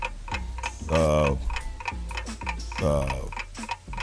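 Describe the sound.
A ticking clock timer counts down in a quiz game, with rapid, evenly spaced ticks throughout and two louder, drawn-out tonal bursts rising over them.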